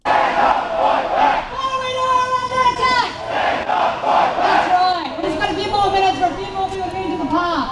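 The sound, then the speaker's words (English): Frustrated construction and mining union workers rally in a Sydney street protest, a crowd shouting rhythmic chants in repeated loud bursts, raised voices overlapping with cries and calls. “What you are hearing is the sounds of frustrated workers taking to the streets to protest against several government reforms that have sparked a national day of action led by the Construction, Forestry, Mining and Energy Union.”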